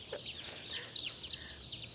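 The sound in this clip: Chicks peep in a box, a dense, steady stream of high, thin chirps overlapping one another without pause.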